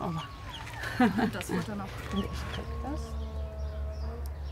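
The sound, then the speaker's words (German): Hungry young chicks cheeping after being moved into a new enclosure, with many short, high chirps repeating unevenly over a low steady hum. “Die Küken haben Hunger. Ein gutes Zeichen.”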